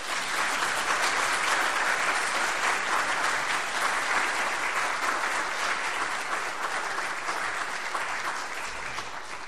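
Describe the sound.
An audience applauds to welcome a speaker at a Martin Luther King Day gathering, with dense, sustained clapping throughout that eases slightly toward the end.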